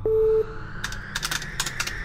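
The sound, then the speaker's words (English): Typing on a computer keyboard to enter a password: a brief steady beep tone comes first, followed by a quick, uneven run of many sharp key clicks. “S drive, search, folder Nasty Vixen XXX, enter password Sharon 666, and voila.”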